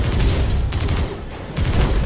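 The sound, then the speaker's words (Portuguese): Rifle shots fired by someone kneeling, aimed at an advancing robot: a few sharp, loud blasts with rough, echoing tails and short gaps between them. “Ele se virou, ficou sob um joelho e atirou com um rifle.”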